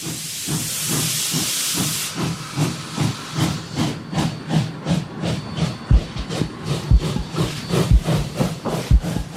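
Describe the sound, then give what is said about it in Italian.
Steam train at a station platform: a loud hiss of released steam for about two seconds, then rhythmic chuffing in a steady pulse, with deep low thumps joining in toward the end. “prendiamo il biglietto, ci avviciniamo alla banchina e prendiamo un treno.”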